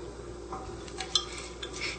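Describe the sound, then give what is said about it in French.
Brown sugar and cold water being stirred together in a pot for a sauce: a faint, steady scraping of the utensil with a few light clinks against the pot. “La préparation de la sauce, on mélange dans le chaudron le sucre brun, une tasse et demie, l'eau froide,”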